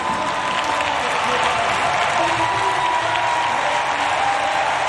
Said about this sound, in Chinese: 收获了全场的掌声。